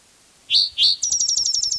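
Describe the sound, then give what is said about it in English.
Bird song: two bright rising whistled chirps, then a quick run of short, evenly spaced high notes, loud and with no other sounds. “This bird has more songs.”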